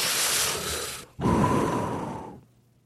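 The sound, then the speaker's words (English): A person takes a deep breath: a long, noisy inhale, a brief pause, then a louder, longer exhale that fades away. “So here's what we're gonna do. We're gonna take a deep breath.”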